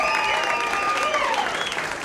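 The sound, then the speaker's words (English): Audience applause for a pianist at a live band show: dense, steady clapping fills the whole clip at a fairly loud level, with sustained musical tones lingering underneath. “Please give a warm round of applause for Mr. John Fisher on piano tonight.”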